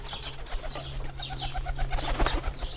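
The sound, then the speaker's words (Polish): Ornamental pigeons, including fantails and Dutch capuchins, coo softly with many repeated murmuring calls over a low steady hum. “Są i pawiki, i kapucyny holenderskie, i czajki saksońskie. To jest wszystko taki gołąbek”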